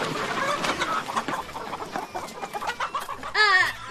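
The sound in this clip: Chickens clucking in a chicken coop, a busy stream of overlapping clucks and chatter, ending in one louder, shrill squawk near the close.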